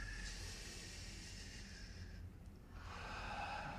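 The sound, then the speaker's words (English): A slow, faint breath during a guided exercise, a soft steady airy hiss with a brief dip near the end and no talk. “One more breath.”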